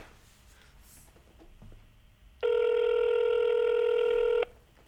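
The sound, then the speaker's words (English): A telephone call rings through as a single steady, loud electronic ring tone lasting about two seconds, following a stretch of quiet line noise. “Okay, we're giving Paul a call.”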